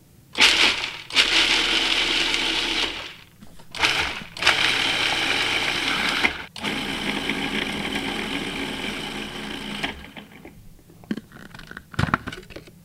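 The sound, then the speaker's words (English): A food processor pulses garlic, pine nuts and salt in loud whirring bursts of uneven length. Short pauses separate the bursts, and the last ones trail off into quiet. “And then we're going to pulse that until it's finely chopped. So we've got the garlic, pine nuts, and salt in the food processor.”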